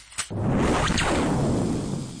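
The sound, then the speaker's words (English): A sci-fi energy weapon shot burns a hole in a burrock plant: a sharp crack opens it, then a long, broad hissing rush that sweeps through and fades gradually. “That's a mighty fine hole you just burnt in an innocent burrock plant.”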